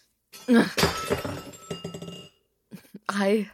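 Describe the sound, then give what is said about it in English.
Things are smashed and broken in anger: a few crashes and sharp clinks of breaking glass and hard objects, mixed with a loud voice grunting and shouting, then a brief pause before another burst. “Can't you hear I'm a little busy breaking shit?”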